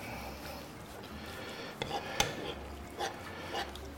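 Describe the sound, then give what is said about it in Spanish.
A utensil presses and crushes onion in a hot pan, giving a steady hiss broken by a few short scraping, rasping knocks against the pan. “Estoy como aplastando un poquito la cebolla, ¿eh? Es que me quemo. Aplastando un poquito así la cebolla.”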